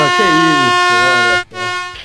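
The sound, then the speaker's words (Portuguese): A horn sound effect blares during a sports trivia quiz: a sustained, buzzy tone with a short break near the end before it resumes. Voices talk over it. “Primeira vez que eu sou buzinado aqui no programa.”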